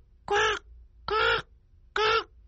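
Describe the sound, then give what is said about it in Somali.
A crow caws three times, each call loud, harsh and nasal, evenly spaced with short quiet gaps between them. “fiiri tukuu wuxuu dhawaaqaa”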